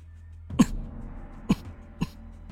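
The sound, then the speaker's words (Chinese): A man coughs lightly into his fist: three short, muffled coughs, the first two stronger and the last softer, over a low steady background. “顾元白抵拳咳了咳”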